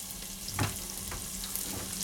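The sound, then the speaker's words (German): Onions frying in hot fat with cumin give a steady, bright sizzling hiss with one brief louder burst early on. No one speaks. “Und jetzt ist der Fett heiß, ich habe die Kreuzkümmel drin. Zunächst kommt das, was man typisch auch in der europäischen Küche kennt, Zwiebeln rein.”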